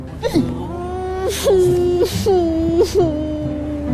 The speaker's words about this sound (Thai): ไม่ต้องร้องเลยค่ะหยุดร้องแล้วเลือกค่ะ